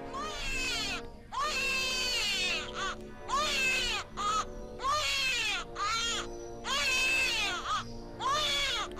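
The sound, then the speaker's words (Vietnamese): A newborn baby cries in many repeated, high, wavering wails with short pauses between them, a steady rhythmic sobbing alone. “Bỗng nhiên, có một tiếng trẻ sơ sinh khóc lên nỉ non. Cái tiếng trẻ sơ sinh khóc lên mà nghe đến rùng mình, phát ra từ miệng đứa bé Lưu Tứ”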